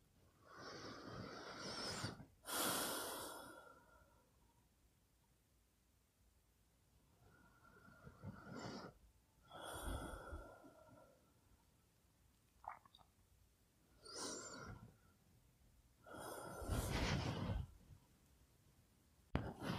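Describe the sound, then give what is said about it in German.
Deep breathing in and out, three slow cycles of soft, airy inhales and exhales separated by quiet pauses. “Dann tun wir das jetzt einfach mal, also dreimal tief ein- und ausatmen.”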